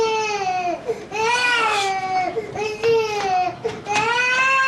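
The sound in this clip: A baby cries after waking up, loud and insistent: repeated wailing cries, each bending up then sliding down in pitch, separated by brief catches of breath.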